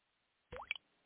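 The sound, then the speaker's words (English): Unaged whiskey drips through charcoal at Jack Daniel's in Lynchburg, Tennessee, giving one brief, faint liquid plop with a quick upward-pitched tone, set against near silence. “That's the sound of unaged whiskey transforming into Jack Daniel's Tennessee whiskey in Lynchburg, Tennessee.”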